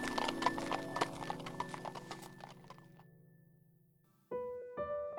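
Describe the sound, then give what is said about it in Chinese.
Horse hooves clip-clop steadily from a horse-drawn carriage driven fast and smoothly, with many quick, sharp strikes that gradually fade over the first few seconds. “谢之方亲自做车夫，笑嘻嘻地挥动鞭子，将马车驾得又快又稳，驶离长安，奔赴江南而去”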